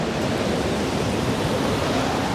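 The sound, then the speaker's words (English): Cold wind blows across a high mountain ledge in thin air, a loud, dense and even rushing roar that holds steady throughout with no voices. “The air is thin at this height, and the wind likes to bite.”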